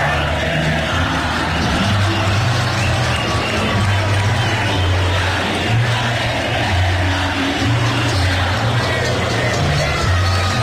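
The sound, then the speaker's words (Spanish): A vast crowd of Colombian fans sings together in MetLife Stadium, New Jersey. The chanting is loud and unbroken, with a sustained melodic roar of thousands of voices. “Lo cantábamos. Sonaba, los 43,000 colombianos que estábamos ahí. Escuche cómo sonó ayer el estadio MetLife en New York,”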